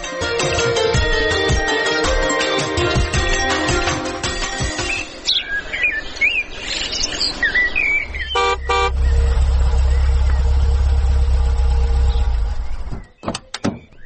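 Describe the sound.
A car engine idles with a steady, low rumble through the latter half, following earlier music and bright, high chirping sounds.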